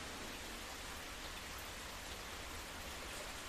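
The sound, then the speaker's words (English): Rain is starting to fall outdoors by a low-burning fire, a faint, steady hiss of light drops with no separate hits standing out and no voices. “I don't know if you can hear that, but it sounds like it's starting to rain.”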